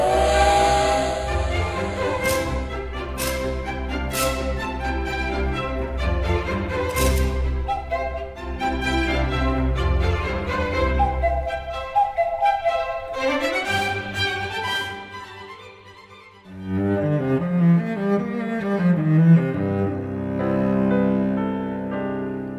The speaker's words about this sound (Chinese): 小朋友们和我们赶快一起搭乘乐器列车出发咯。 列车出发。